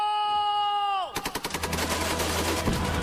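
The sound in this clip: A drawn-out shouted order with a falling end, followed at once by a rapid burst of gunfire, many quick cracking shots running into a rattling, echoing tail.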